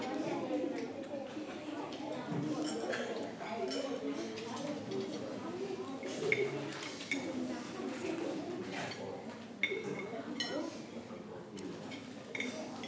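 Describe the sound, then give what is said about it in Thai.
Spoons and forks clink against plates as students eat, with many light, scattered metallic taps and chinks that run steadily throughout beneath a soft murmur of voices. “อย่าลืมนะครับช้อนและซ่อมไม่ควรกระทบกันจนเสียงดังนะครับเวลาตักอาหารก็อย่าให้เสียงดังเกินและอย่าตักเยอะเกินนะครับ”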